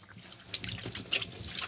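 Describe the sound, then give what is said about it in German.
Faint trickle of running tap water as hands are washed quickly, a soft, uneven splashing with a few brief louder spurts. “So, jetzt wasche ich mir ganz schnell die Hände.”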